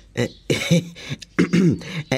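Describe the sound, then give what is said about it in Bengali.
A man hesitantly clears his throat in two voiced, gravelly bursts separated by a short pause. The sound is moderately loud and stands alone. “ভদ্রলোক একটু ইতস্তত করে গলা খাঁকড়িয়ে বললেন,”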